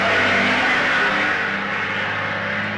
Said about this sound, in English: I know that truck drowned out that noise.